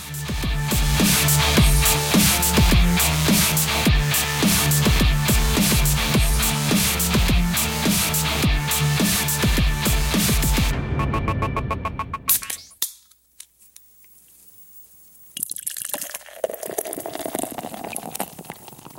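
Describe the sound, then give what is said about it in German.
A beer bottle being opened and poured follows a long stretch of music: a brief click after the music stops, a short quiet gap, then a few seconds of fizzing, splashing liquid. “So, lass uns mal ein Bonusbierchen aufmachen.”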